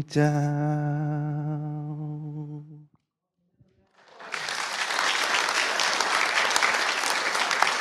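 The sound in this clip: Clapping follows a sustained, wavering melodic tone that dies away into a second of silence. The applause then rises and continues steadily, loud and dense, to the end.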